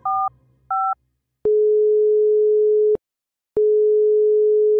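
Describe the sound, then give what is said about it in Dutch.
Ringback tone of an outgoing call from a Fairphone smartphone: two short paired beeps, then two long steady low tones split by a brief silent gap, the second running to the end. “We bellen je met de Fairphone.”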